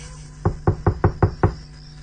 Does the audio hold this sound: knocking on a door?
yes